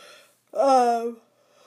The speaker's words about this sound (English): sorry, yawning